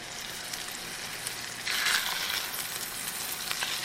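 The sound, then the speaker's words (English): Salted Atlantic salmon fillets sizzle in hot butter and oil. A steady, faint frying hiss grows louder and brighter partway through, then keeps crackling. “Give it another couple seconds here, and then we'll start putting the fish in. And we salted both sides of the salmon. Yeah, so now I'm putting the fish into the oil.”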